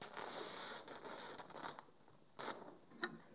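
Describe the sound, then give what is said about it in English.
Fabric rips as a curtain used as a visual aid is torn down to the bottom. A long, faint rasping tear is followed by a couple of short, sharper rips. “It is a curtain. Okay. So if you'd like to rip that one to the bottom.”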